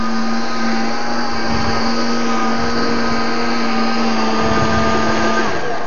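Blender pureeing tomatoes: a loud, steady whirring motor hum with a constant tone that runs unbroken for about six seconds, with no talk.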